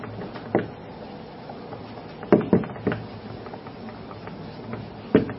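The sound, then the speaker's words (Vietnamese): A bamboo stick taps out a rhythm: a few sharp, dry wooden knocks spaced unevenly over a steady background hiss. “Gậy trúc trên tay. Câu thứ nhất. Gõ nhịp.”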